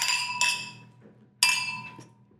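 Glasses clinking in a toast over wine: a few bright, high, ringing clinks with sustained tones that decay slowly, separated by quiet gaps.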